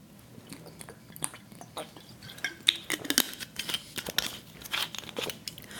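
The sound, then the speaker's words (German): Someone taking a sip of a drink, with small irregular clinks, taps and crinkly handling noises around the cup, fairly quiet and heard without talk. “Kommen wir zur nächsten Geschichte. Ich trinke vorher einen Schluck.”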